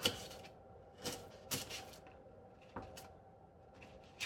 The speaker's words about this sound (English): I'm cutting it very carefully because I'm not using a cutting board, I'm using a piece of cardboard.